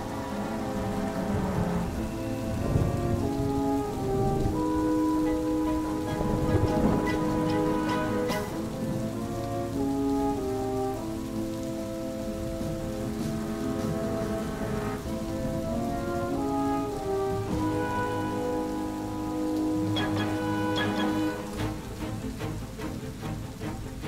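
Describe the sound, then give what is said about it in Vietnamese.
Heavy rain pours in a steady, hissing downpour for the whole stretch, evenly loud throughout, while soft sustained music tones play over it. “Bên ngoài trời mưa rất lớn, nước từ vườn chuối tuôn xối xả vào căn hầm.”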